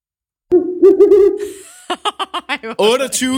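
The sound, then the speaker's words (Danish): A person imitates an owl hoot with a wavering, low vocal hooting call, then a rapid string of short, clipped vocal bursts and a final longer voiced sound. “hvilken dyrelyd er det, jeg lige har lavet? Jamen, mit bud, det er en ugle.”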